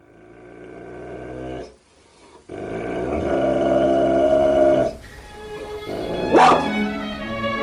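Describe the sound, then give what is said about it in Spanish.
Dogs growling and barking in a few sustained, harmonic snarling bursts separated by short pauses, with a sharper, higher yelp near the end. “Los perros de Patlón.”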